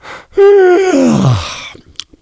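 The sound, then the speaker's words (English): An exaggerated, sarcastic human yawn. A loud voiced tone holds level, then slides steadily downward in pitch and fades into a breathy exhale, with no talk. “I yawn sarcastically.”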